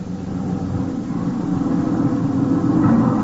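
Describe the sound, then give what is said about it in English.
A truck's engine rumbles in a low, steady drone with no talk, growing slightly louder over about three seconds. “Hey, stop this lousy truck for a minute.”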